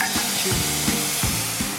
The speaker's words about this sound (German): Mit einer kleinen Kelle gieße ich jetzt ein bisschen von der Gemüsebrühe dazu.